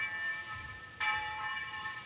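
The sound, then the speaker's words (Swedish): A church bell at Husaby church rings out over the countryside, heard as a faint, sustained metallic tone that is renewed by a fresh strike partway through. “Hör klockklangen från Husaby kyrka, hur den går ut över bygden, precis som den gjort i snart 1000 år.”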